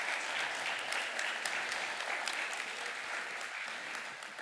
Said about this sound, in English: can you just give them a warm welcome as they help me this morning?